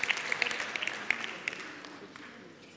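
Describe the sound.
A church audience applauds for the people seated in the balcony. The clapping is faint, with a few sharper individual claps early on, and it gradually fades toward the end.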